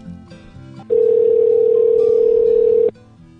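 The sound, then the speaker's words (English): A steady telephone dial tone, a loud, even, unbroken hum lasting about two seconds, with quieter tonal telephone sounds just before and after it. “Okay, Lube and Go, let me get their phone number.”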